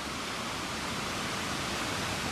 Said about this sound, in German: Das ist der zweithöchste Wasserfall der USA.